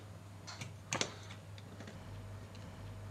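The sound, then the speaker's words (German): Light mechanical clicks from a latching lever on a model fuel-starter mechanism with a spring and rubber band, tripped by pulling a thread. A few faint ticks include a sharper double click near the start. “Und wenn man an dem Faden oben zieht, dann kommt das Klack.”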